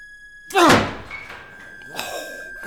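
A door is forced open with one heavy, loud thunk and a brief rattle, then a softer knock follows about a second and a half later.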